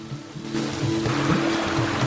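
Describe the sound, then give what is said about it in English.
A torrent of flood water rushes over submerged grass, carrying debris in a fast, churning flow. It makes a continuous broad roar and splash that swells slightly and stays fairly loud throughout, with no voices. “Churning white and brown water as grass is submerged by the torrent. Debris rushes by in the fast flow.”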